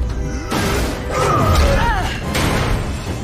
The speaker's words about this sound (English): As Bane towers over Catwoman and raises his fist, an explosion knocks him forwards